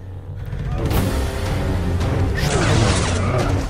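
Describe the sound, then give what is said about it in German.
Lightsabers hum and swing in the Star Wars fan film Darth Maul Apprentice: a dense, steady low hum runs throughout, with broad sweeping swishes rising over it in a continuous action-scene wash. “Man hört schon Lichtschwerter im Hintergrund hin und her schießen. Das ist ein Star Wars Fanfilm. Darth Maul Apprentice heißt er.”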